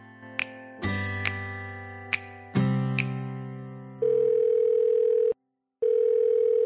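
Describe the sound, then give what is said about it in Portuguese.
Telephone sounds as a call is placed: several sharp clicks over buzzy layered tones, then a steady dial tone that cuts out once briefly and comes back. “vamos ligar para a Sangerine e ouvir que histórias ela tem para contar pra gente.”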